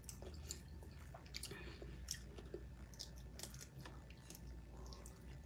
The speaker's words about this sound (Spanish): ¡Ay, chica! está comiendo.